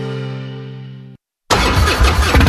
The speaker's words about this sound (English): This is the sound of a popular American motorcycle. It's the sound of freedom, the open road, really good times.